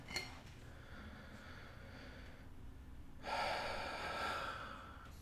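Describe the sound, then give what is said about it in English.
A slow deep breath: a short gasp-like intake at the start, then a louder airy rush of breath swelling in the second half, over steady low background noise. “Nice deep breath.”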